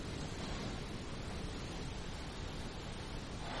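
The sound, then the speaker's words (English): Wind blowing outdoors makes a steady, rough, continuous rush of noise with no voices or distinct events. “So today the wind is blowing.”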